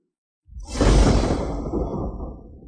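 An arrow shot up into the sky whooshes through the air with a sudden, broad, rushing sound that swells quickly, then slowly fades over about two seconds, heard alone.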